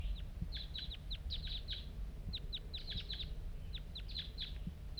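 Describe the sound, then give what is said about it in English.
A lone wild bird calls nearby with many quick, high chirps in rapid clusters, fairly faint, over a steady low rumble. “Here it comes. One lone bird. And it's real nearby right now.”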